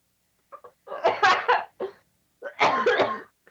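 A person coughing in a few harsh, loud bursts separated by short pauses, with two longer fits of several rapid coughs each.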